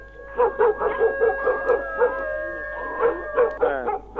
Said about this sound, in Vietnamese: Một đoạn tự nhiên chó của cả xóm cứ thế mà chu giống lên đến ghê rợn.